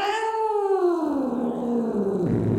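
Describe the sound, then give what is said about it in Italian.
A cat gives a single long, shrill meow at a doorway, loud and drawn out over the whole stretch, its pitch sliding downward toward the end, with no voices. “Con molta cautela mi avvicinai alla porta e un acuto miagolio mi frastornò le orecchie.”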